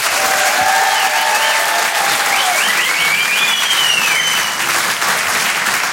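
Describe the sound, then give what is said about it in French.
Audience applause at a stand-up comedy show as the next comedian is introduced: loud, steady clapping from a crowd fills the whole stretch without letting up. “Faites du bruit s'il vous plaît pour Harold Barbet.”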